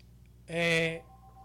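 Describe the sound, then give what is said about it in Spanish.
A single telephone tone sounds as a call is dialed. One steady beep, about half a second long, rises clearly above a faint background and then stops. “Pues tengo la llamada ahí marcando.”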